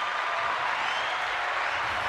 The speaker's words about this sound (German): So, danke für den Applaus.